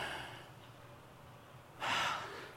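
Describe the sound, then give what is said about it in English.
An audience breathing together on cue: a faint, steady, breathy hiss swells into a louder rush of air near the end. “I just want us to all take a deep breath. No, like seriously, I want us to take a deep breath.”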